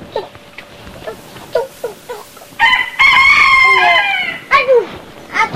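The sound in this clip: A rooster crows loudly. A run of short clucks leads into one long, strained crow of well over a second, followed by a couple of sharp squawks.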